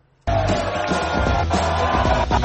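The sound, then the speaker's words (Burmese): Conservative party members shouting and cheering for Boris Johnson at a London campaign rally: a loud, dense crowd roar that bursts in after a brief quiet moment and holds steady to the end. “မနေ့ကလန်ဒန်မြို့တော်မှာကျင်းပတဲ့မက်ဆွတ်စည်းရုံးပွဲအခမ်းအနားမှာဗြိတိန်ဝန်ကြီးချုပ်ဟောင်ဘော်ရစ်ဂျွန်ဆန်ကိုမထင်မှတ်ဖဲတွေ့လိုက်ရတဲ့အတွက်ကွန်ဆာဗေးတစ်ပါတီဝင်တွေအော်ဟစ်အားပေးခဲ့ကြပါတယ”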